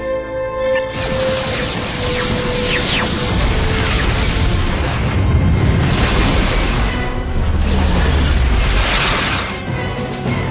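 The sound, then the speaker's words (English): Photon torpedoes firing from a starship: a loud, dense roaring rumble with whooshing sweeps and booming bursts that runs continuously throughout, with no talking. “Stand by photon torpedoes. Aye, sir. Fire!”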